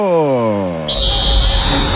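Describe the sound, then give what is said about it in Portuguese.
A referee's whistle blows at the start of a 2026 World Cup football match. A voice speaks with a falling pitch, then a single long, shrill, steady whistle blast sounds loudly until the end. “Apita o árbitro!”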